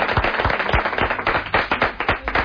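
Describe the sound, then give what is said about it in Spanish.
Applause from a small group of studio guests: a couple of seconds of brisk, uneven hand claps, fairly loud, with no voices over them. “Espera, ¿quieres un aplauso? Porque aprovechando que somos varios... Bien, un aplauso.”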